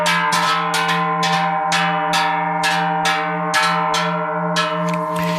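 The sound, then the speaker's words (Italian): A deep-toned cowbell, a large size-12 bell cast by a bell foundry, clangs again and again in many bright, irregular strikes, each leaving a sustained metallic ring that blends into a continuous hum. “Questo dunque era il suono di un campanaccio prodotto dalla fonderia di Alexis”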